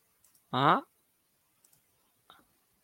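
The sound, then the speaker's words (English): A computer mouse is clicked while sharing a screen: a few small, faint clicks in near silence, with one brief voiced sound among them. “So, present, share screen. And then I've got to click on.”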